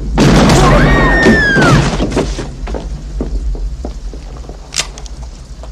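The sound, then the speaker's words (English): A gunshot in a Western film scene where an unarmed man is shot: a loud, booming burst up front with a ringing, whistling tail that fades into a low rumble, then a smaller sharp crack near the end. “You just shot an unarmed man.”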